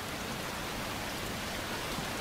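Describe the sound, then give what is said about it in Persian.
Steady rain falls as a dense, continuous hiss of drops without pause or voices. “آسمونو ببین چارلی براون، کسی توی این بارون نمیاد اینجا.”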